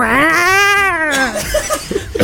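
A startled kitten meows once in a loud, drawn-out, tonal cry whose pitch rises slightly and then falls, followed by a short stretch of scattered softer sounds.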